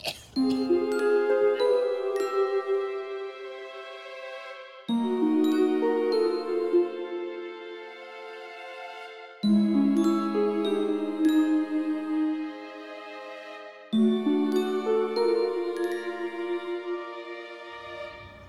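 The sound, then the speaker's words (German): A monophonic mobile phone ringtone plays a bright, beeping electronic melody of clipped notes. The same phrase repeats four times at a steady, moderate loudness. “Oh, ist das eine furchtbare Melodie. Wessen Handy ist das? Das wäre dann ein monophoner Klingelton und das ist deines.”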